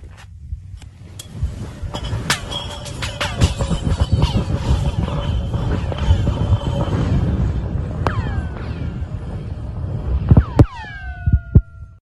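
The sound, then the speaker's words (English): A chunk of ice dropped down a 1,500-foot-deep borehole through ice makes a long rumbling clatter of many clicks and knocks, ending in a few sharp pings with falling, laser-like whistling tones. “1,500 feet deep, like a well, but it's through ice, and you've dropped a chunk of ice down it, what would it sound like?”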